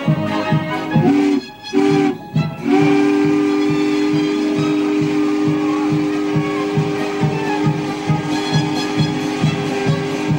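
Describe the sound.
Loud train whistle signalling two short blasts followed by one long sustained blast, steady in pitch, over the rhythmic rumble and clatter of a moving train.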